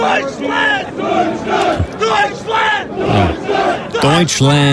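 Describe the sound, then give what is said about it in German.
A crowd in America cheers and chants, many voices rising and falling in loud, drawn-out shouted phrases that run without a break. “Ja, man muss sie halt ein bisschen anfeuern. Und in Amerika klingt das ein bisschen so.”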